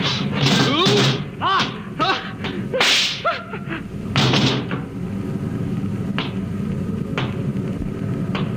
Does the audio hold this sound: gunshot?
yes